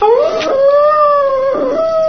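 A dog howls in one long, loud, wavering tone that sags slightly and then rises again near the end, heard alone without voices.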